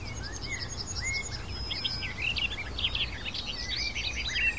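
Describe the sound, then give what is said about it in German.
A bird sings nonstop in a sunlit flower meadow, pouring out many short, high chirps, whistles and trills in quick succession over a steady low background hum. “Also dieser Vogel hält gerade nichts zurück. Er singt und singt und singt.”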